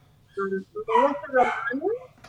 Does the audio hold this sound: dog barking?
yes

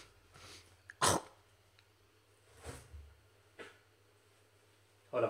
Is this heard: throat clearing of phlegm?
yes

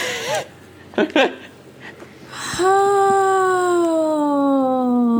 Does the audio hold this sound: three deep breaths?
no

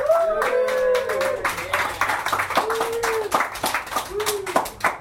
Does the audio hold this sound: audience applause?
yes

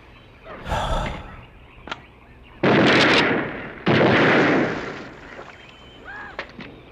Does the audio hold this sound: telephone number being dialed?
no

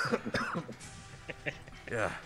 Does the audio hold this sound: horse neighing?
no

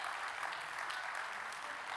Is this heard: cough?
no

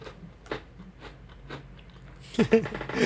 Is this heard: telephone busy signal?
no

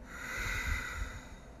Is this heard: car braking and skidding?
no

